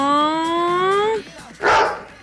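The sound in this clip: A human voice imitates a small dog: a drawn-out, slightly rising whine, then one short, rough yelp after a brief pause.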